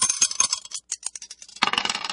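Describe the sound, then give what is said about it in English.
Dice are tossed to pick a song at random: a string of light, sharp clicks and rattles, a brief pause, then a denser burst of clatter as they tumble to a stop. “Let's toss the dice and see what we get.”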